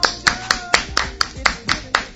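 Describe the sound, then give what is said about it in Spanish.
Sharp, crisp hand claps ring out in a steady, evenly spaced run of about four per second, each one a distinct snap. The rhythm holds for the whole stretch, like one person clapping along during a comedy bit. “Un aplauso. ¡Bravo!”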